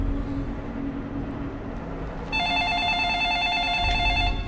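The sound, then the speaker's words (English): An electronic telephone ring with a warbling trill starts about halfway through and continues to the end. It sits over a steady low rumble. “She studies him as he answers the phone.”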